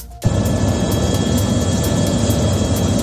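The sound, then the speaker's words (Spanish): A firefighting helicopter flies over a wildfire, its loud, steady engine roar carrying a rapid, even rotor pulse. The sound starts abruptly after a brief moment and holds at full strength throughout. “Este es el sonido de uno de los cuatro helicópteros que participan en el operativo.”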